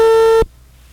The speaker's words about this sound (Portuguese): Estamos aqui tentando a ligação. Opa, tá chamando. Tá chamando.